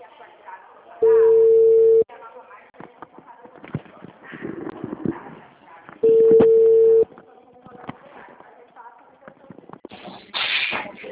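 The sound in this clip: A telephone line tone sounds after a dropped call: two long, steady beeps, each lasting about a second and separated by a pause of several seconds, over faint, scattered background noise, with a short hiss burst near the end.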